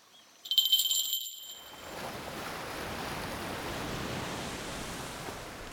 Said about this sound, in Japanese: 月夜が映り込んだ夜の海の静かなさざ波。